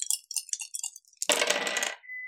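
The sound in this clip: Dice rolling on a table, two eight-sided and one six-sided: a few light clicks come first, then a dense, bright clattering rattle lasting under a second before it settles.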